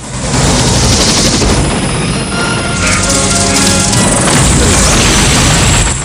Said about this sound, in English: Rambo sets the tank's gun to fire.